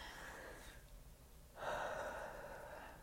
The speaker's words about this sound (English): If you want to breathe with me, in.